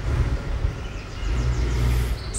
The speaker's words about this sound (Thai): เนี่ยเวลาเรามีได้ยินเสียงรถเนี่ยเข้ามาอย่างเงี้ยบางคนก็ไหลไปอยู่ที่เสียง